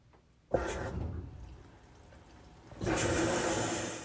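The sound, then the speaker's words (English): Water rushes into a washing machine running a load of new fabric in two surges. The first starts abruptly and eases off; the second is stronger and holds steady to the end. No one talks. “That's the sound of my washing machine. And I have that going”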